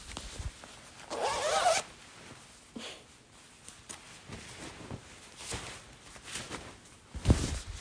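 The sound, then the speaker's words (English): A jacket being taken off: a few quick zipper pulls with rustling of the noisy fabric between them, faint and isolated with no talk. “I should probably take off my jacket because it makes a lot of noise. It's like really loud.”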